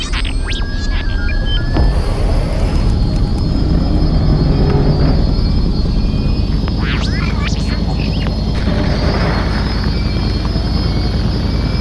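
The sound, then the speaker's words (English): A spaceship's engine drones steadily as it begins its landing cycle, a loud low hum with scattered electronic chirps and beeps. “I'm gonna start the landing cycle.”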